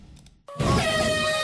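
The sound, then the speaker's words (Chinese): A ship's departure horn sounds at the start of a national sailing regatta on the coast at Beidaihe New Area, Qinhuangdao. After a brief faint sound, a loud, steady, tonal blast rich in harmonics begins about a third of the way in and holds to the end. “随着启航汽笛的鸣响”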